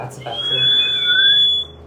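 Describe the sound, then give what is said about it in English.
A person whistling a single sustained high note that holds steady for about a second and a half, fairly loud, then stops abruptly. “I wish I could do that thing, but I'll do like a whistle.”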